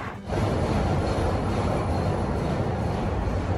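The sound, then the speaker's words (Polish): A Chicago Blue Line metro train at a station on the O'Hare airport route: a loud, steady rumble with airy hiss that begins after a brief quieter moment and holds without voices. “Jestem na stacji, dojazd na lotnisko O'Hare jest całkiem łatwy. Blue Line do centrum.”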